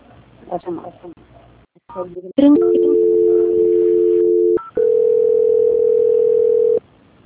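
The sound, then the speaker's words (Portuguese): Telephone line tones play while a call is transferred: after a brief stretch of voice-like sound, two long, loud, steady electronic tones follow back to back, the second pitched slightly higher, then cut off abruptly. “Transferindo a ligação, obrigado.”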